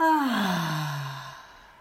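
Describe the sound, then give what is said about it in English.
A deep, voiced exhale during a guided breathing exercise: one long sigh that falls steadily in pitch and fades out gradually, with no talking. “Last deep breath in. Deep breath in. And out.”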